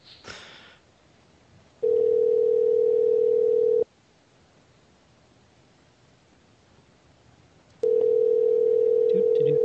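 A telephone ringback tone sounds while a call goes out to someone. Two long, steady mid-pitched tones of about two seconds each are separated by a long stretch of near silence, after a brief rustle at the start.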